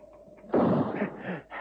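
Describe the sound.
A single rifle shot: a sudden loud, sharp crack breaks a quiet background, followed by a rough, rolling tail that fades in uneven bursts; no voices.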